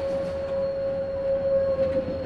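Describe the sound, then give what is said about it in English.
A train in Egypt, with passengers waiting for a ride to Cairo: a steady low rumble and a constant high whine run evenly throughout, with no voices. “waiting for the train to take us to the capital city, Cairo.”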